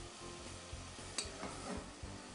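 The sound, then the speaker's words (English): Meat and vegetables sautéing and browning in a pot, a steady, fairly quiet sizzle broken by a few soft stirring scrapes, with no talk. “I want to brown them a little bit. It helps make my flavors a little bit richer in this recipe, but it's not totally necessary. So this will take a few minutes for me to saute.”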